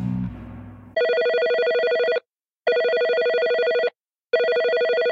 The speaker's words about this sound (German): Kann man den auch einfach mal anrufen? Logisch. Wir probieren es mal. Der spontane Anruf.